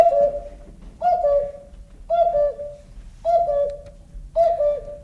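Five evenly spaced two-note cuckoo calls from a clock striking five o'clock, each a clear high note dropping to a lower one, about a second apart, with nothing else heard.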